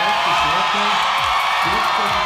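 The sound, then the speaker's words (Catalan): Crowd in Iceland cheering and shouting with joy as a referendum result rejects reopening negotiations with Brussels; a dense, steady roar of many overlapping voices and whoops continues throughout. “Són els crits d'alegria en saber-se que el no s'ha imposat en el referèndum sobre reobrir les negociacions amb Brussel·les.”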